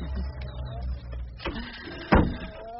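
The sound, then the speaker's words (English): A cash machine (ATM) whirs and buzzes as it works: a steady mechanical motor drone broken by a couple of clicks and a sharper clunk near the end. “Bloody machine. Oh, what's the matter, mate? The damn thing keeps coming up with insufficient funds.”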